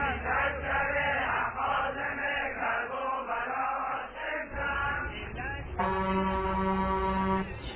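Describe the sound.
A car horn honks in traffic, a steady, sustained blare standing out near the end after a dense stretch of voices and traffic noise.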